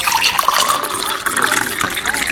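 Water poured for someone to drink with medicine, a bright, continuous splashing trickle that runs steadily and fairly loud for about two seconds.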